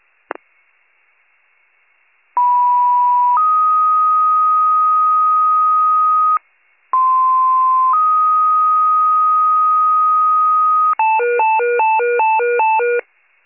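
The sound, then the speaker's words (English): Warren County fire department dispatch paging tones: two loud two-tone sequences, each a short steady lower tone stepping up to a longer higher one, followed by a rapid pulsing alert, with no voices. “Fire, you can disregard your tones for the Grosbeak Drive call.”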